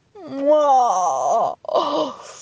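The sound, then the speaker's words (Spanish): A long voiced yawn, imitated by a human voice for a giraffe: a drawn-out moaning tone that swells and wavers, then breaks off into a short breathy tail. “Entonces bostezó.”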